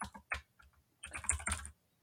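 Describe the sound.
Computer keyboard typing in quick bursts: a short run of key clicks, a brief pause, then a denser flurry of keystrokes.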